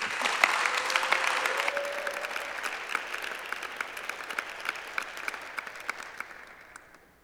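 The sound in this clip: Audience applause welcomes a speaker onto the stage: dense, steady clapping with crisp individual claps standing out, gradually thinning and fading away at the end.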